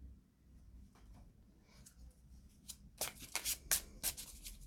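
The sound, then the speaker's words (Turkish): Tarot cards being shuffled by hand: soft rustling at first, then a run of crisp, loud riffling bursts in quick succession. “bir kart daha istiyorsunuz biliyorum ama şuradan seçeceğim.”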